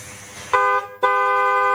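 Car horn honking at someone on a road, sounding as two loud, steady tonal blasts: a short one, a brief break, then a longer sustained honk that runs to the end. No voices are heard.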